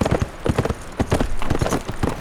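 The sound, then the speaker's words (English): Hooves clip-clop as a saddled riding horse with a loaded pack saddle heads out of Denver. Many crisp, rhythmic hoof strikes sound loud and steady, with no talk over them. “He saddled up his riding horse, cinched down the pack saddle, and headed out of Denver.”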